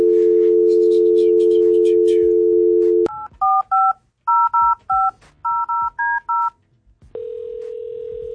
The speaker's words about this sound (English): I'm allow you to dial that first number.